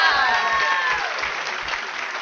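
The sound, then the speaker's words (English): A crowd cheering and clapping after a chanted cheer routine, with a high whoop near the start and a steady roar that eases slightly toward the end. “Yeah, I like those cheers.”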